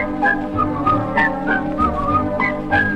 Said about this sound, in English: all they do is, with a little Swiss whistling, little Swiss whistling song.